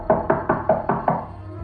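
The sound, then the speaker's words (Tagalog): Knocking on a wooden door: six firm, dull raps in quick, even succession, each with a short resonant decay, and no voices. “Sa umpisa ay mahina lang ang katok at mabagal. Pero palakas ito ng palakas na parang gusto talagang buksan ang pinto.”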